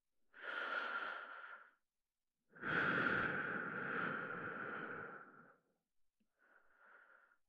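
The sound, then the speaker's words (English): Slow, heavy human breathing: a few long, airy breaths with a soft, wheezy hiss, the middle one the longest and the last one faint, separated by quiet pauses. “Feel how my chest heaves and sinks with every breath, just like yours.”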